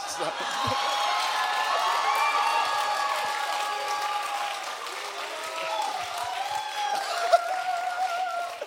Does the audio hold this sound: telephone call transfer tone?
no